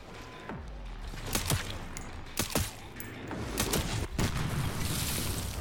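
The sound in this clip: Gunfire in a video game: several quiet, sharp shots ring out, some in quick pairs, spread unevenly across a low, steady background.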